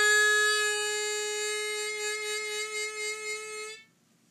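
A harmonica holds a bent note partway between three draw and its half step bend, a sustained reedy tone that starts strong, then pulses in a gentle wavering rhythm before cutting off near the end.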